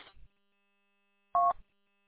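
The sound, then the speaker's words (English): A single telephone keypad dialing tone sounds on its own: one short, clean, two-pitched beep. A faint, brief rustle comes before it, then silence. “I mean, I can dial it up and see if I can hear it.”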